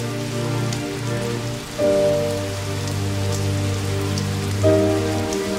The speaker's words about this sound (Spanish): La capa de lluvia porque llovía.